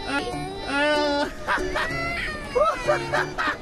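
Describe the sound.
A baby crying in several high-pitched, tonal wails with wavering pitch, the cries coming in short bursts with brief gaps between them.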